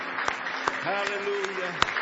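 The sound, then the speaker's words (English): Church audience clapping hands in praise at an evening service: a few sharp, spaced claps ring out over a soft background, with a sustained voice rising through the middle of the stretch. “Give him a nice hand clap of praise tonight.”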